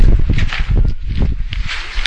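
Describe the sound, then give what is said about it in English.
Loud wind blows outdoors, a dense, steady rumble with gusty bursts that buffet throughout, without any clear voices. “Man, this wind is loud, huh?”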